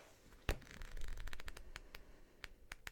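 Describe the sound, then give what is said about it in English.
Pages of a card guidebook being flipped through to find a card: faint papery rustling with a sharp flick early on and several crisp, quick flicks toward the end, no talking. “So I'm just gonna find this card in the guidebook and I'll read you the description.”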